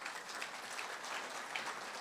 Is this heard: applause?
yes